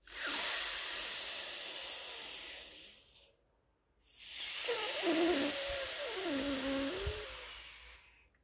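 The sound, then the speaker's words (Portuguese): Two long, airy breaths drawn in and out through one nostril, the left one closed with the thumb, during a breathing exercise. Each is a steady soft hiss, separated by a brief silent pause. “você fechará sua narina esquerda, inspirando e exalando por mais três vezes. Inspiramos.”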